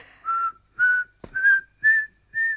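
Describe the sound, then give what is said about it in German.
Human whistling: five short, clear whistled notes in an even rhythm, the first slightly lower in pitch, with a brief sharp click between the second and third. “Pfeif nicht!”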